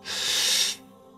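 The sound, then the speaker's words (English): One deep inhale during guided meditation breathing, a steady, airy hiss of drawn-in breath lasting under a second before it cuts off into quiet. “Deep inhale, so no more air fits in at the end of the breath cycle.”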